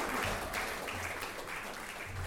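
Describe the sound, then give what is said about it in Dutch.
Applause for a jazz orchestra after its performance: a steady, moderately faint spread of many hands clapping that neither builds nor tapers. “Ja, een applaus voor het Millennium Jazz Orchestra.”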